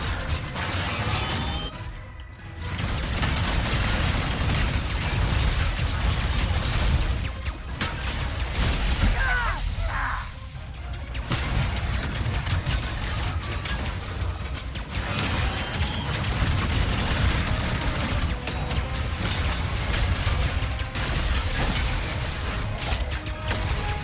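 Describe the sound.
Shooting and explosions from Ratchet & Clank Rift Apart, played on PC, form a dense, loud barrage of blasts, shattering and mechanical clatter. The barrage drops away briefly near the start, then continues almost without pause.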